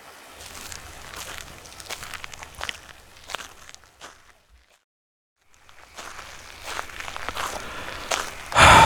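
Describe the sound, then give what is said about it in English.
Footsteps of people walking along a border beside water: many irregular steps at moderate loudness. The steps break off into a near-silent pause midway, then resume, ending with a louder burst. “Let's walk for a bit, see what we see.”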